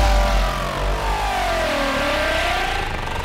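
A car engine revs hard as the car, reported stolen, pulls away. The steady, loud roar dips in pitch, then climbs again, with no voices.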